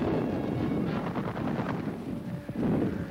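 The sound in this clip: Artillery and gunfire during a Japanese troop landing at Shanghai in 1937, under Chinese batteries on the Yangtze banks. The noise is dense, loud and continuous, with rapid bursts and rumbling blasts running throughout, and no voices.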